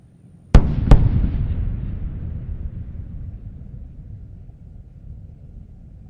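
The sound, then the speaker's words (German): A space shuttle orbiter approaching landing at Kennedy Space Center sets off a sonic boom: two sharp, loud cracks in quick succession, followed by a low rumble that fades slowly over several seconds. “Sonic Boom's announcing Discovery's arrival.”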